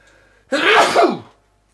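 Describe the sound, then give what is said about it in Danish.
A single loud sneeze erupts after a brief quiet lead-in, a sharp breathy explosion that fades away within about a second. “Der plejer at komme et tredje. Jeg ser, I nyser.”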